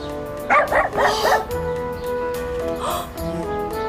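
A dog barks near a house where she is with her puppies. A quick run of four sharp barks is followed a moment later by one more, over a steady background.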